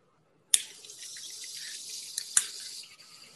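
Water bubbling in a bong as it is smoked: a sharp click opens a continuous, hissing gurgle, with a second sharp click partway through, and the bubbling then tapers off softly.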